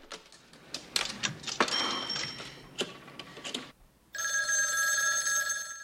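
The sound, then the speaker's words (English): A telephone rings as a call is placed: a steady, bright, buzzing ring starts past the midpoint and holds to the end. Before it come scattered thuds and clatter. “He runs up some stairs, then back down, and makes a call.”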